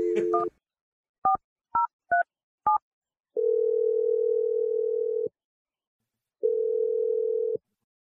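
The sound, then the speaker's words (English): A telephone number being dialed: a brief tone, then five quick keypad beeps of varying pitch, followed by two long, steady ringing tones with a pause between them. “Let's dial this number and see what she has to say.”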